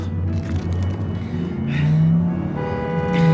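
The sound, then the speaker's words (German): Taxi engine accelerating hard during a car chase, a loud, steady motor drone whose harmonic tones climb as the revs build, with a second surge of rising pitch near the end. “Bitte geben Sie Gas. Wir verlieren den Porsche.”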